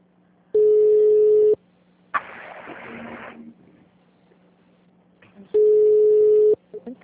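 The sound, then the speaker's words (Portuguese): Ringback tone on a phone line during a call: two steady, mid-pitched electronic tones of about a second each, separated by a pause that holds a short burst of noise. “Começou a chamar agora, depois você entrou. Tá chamando pra mim aqui.”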